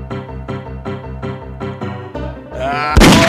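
A gunshot in the video game Grizzly Gulch, one sharp, loud burst near the end that cuts in after a repeating musical pattern.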